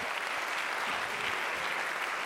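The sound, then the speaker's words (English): A church audience claps their hands during worship in a dense, loud, steady burst of applause that holds evenly with no one speaking over it. “Let's clap our hands unto the Lord and lift up his name.”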